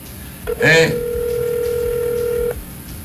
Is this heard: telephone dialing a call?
yes